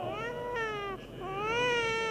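An infant cries at a christening with a continuous, wavering wail that dips in pitch, breaks briefly, then rises again, fairly faint.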